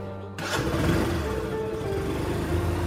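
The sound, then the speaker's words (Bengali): An old, worn scooter engine on a small-town street kicks in abruptly and runs in a loud, steady buzzing drone. “প্রসেনজিতে জীর্ণ স্কুটারটা যেন একরাশ পশ্চিমা হাওয়ার মতো ফারাকে ভিজিয়ে হারিয়ে গেল”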